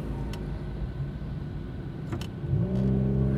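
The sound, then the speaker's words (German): A car pulls away from outside a supermarket. A low engine rumble gives way to a louder, steadier revving drone, and its tone rises slightly near the end. “ich glaube, ich muss weiterfahren.”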